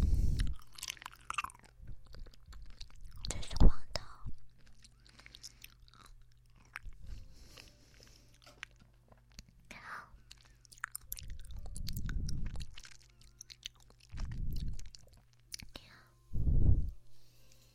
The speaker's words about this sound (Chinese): 好吃吗？喜欢姐姐喂你吃果冻吗？吃完这个就不吃了。